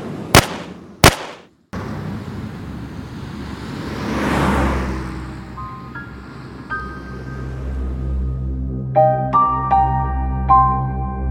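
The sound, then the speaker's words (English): Two sharp, loud gunshots are fired by a deputy at a fleeing car, followed by a long, rumbling wash of noise and, later, a few high, ringing tonal notes. “Officer Hunter, a first-year deputy, fired.”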